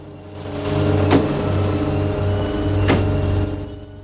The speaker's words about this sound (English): Kersey turns a corner and pulls up on the side of the road.